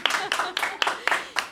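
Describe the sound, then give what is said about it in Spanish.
A crowd applauding in a steady rhythm, six evenly spaced bursts of clapping, each sharp at the start and quickly fading. “Mira, mira, mira, se llenó de gente para aplaudir.”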